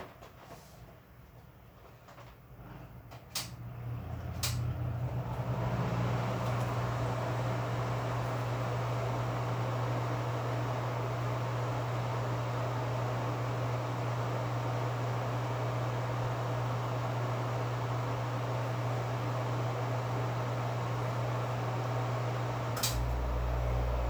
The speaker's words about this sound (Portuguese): deixa eu só ligar o ar aqui que eu acho que meu celular.